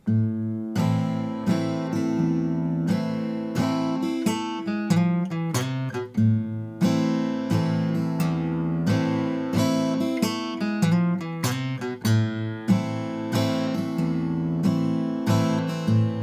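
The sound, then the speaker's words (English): A Mule resonator guitar strummed on an A minor chord in waltz time, breaking into a descending stair-step lick from the second fret of the G string, then returning to A minor strums. Bright, steady strums and picked notes ring out alone. “Strum the A minor, go into the lick, come back out into that A minor chord. That will sound like this.”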